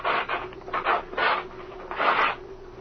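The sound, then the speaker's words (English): Fabric covering ripped off an aircraft wing near a split, sewn-up patch by the tip, heard as a few rough, rasping tearing bursts alone with no talk. “I'll rip this wing covering off and see why the patch was made.”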